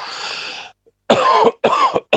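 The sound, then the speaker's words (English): Harsh coughing from a person with a cough: a few rough, noisy bursts separated by short silences, loud and alone with no talk. “of course, I've got a cough at the moment too”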